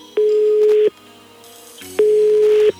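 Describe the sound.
Telephone line tones while a call is being placed: two long, steady, mid-pitched beeps separated by a gap of about a second, loud over a faint hum.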